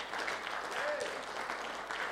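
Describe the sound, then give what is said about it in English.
A standing church audience applauds during a Father's Day service: a continuous broad wash of many hands clapping, steady and moderately loud from start to finish. “and just give a round of applause to our Heavenly Father.”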